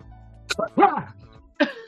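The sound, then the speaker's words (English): A voice imitates a phlegmy cough during a tabletop role-playing game, a few short throaty hacking bursts with a wet, gravelly rasp, then a brief final grunt. “and just coughs up phlegm right in your face.”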